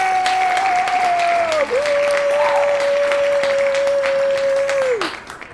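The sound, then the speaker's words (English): An applause sound effect played during a casual recording. Dense, steady clapping and crowd noise holds at an even level for about five seconds, then drops off abruptly. “See, I'm looking forward to maybe hearing the applause sound effect that you usually put in there. You didn't hear the actual, like, they, oh, I'm sorry, I had them muted. You guys want to give them one more?”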